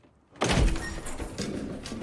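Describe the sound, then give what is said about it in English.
The back doors of a white van open with a sudden heavy thunk, followed by a continuous loud rattling, rushing noise that eases slightly but carries on to the end. “Two young men open the back of the white van and start to unload some equipment.”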